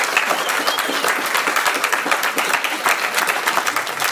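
An audience applauds to welcome a guest to the stage, a dense, loud and steady wash of many hands clapping without a break.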